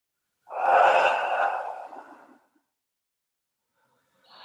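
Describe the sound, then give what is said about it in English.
Slow guided breathing: one long, audible breath swells and then fades away, followed by silence, and another breath begins just at the end. “Inhale, 1, 2, 3, 4, 5, and exhale, 5, 4, 3, 2, 1.”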